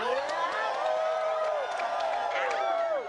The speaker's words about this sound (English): The audience participation part. Great feast, celebration, and party as loud as you wish.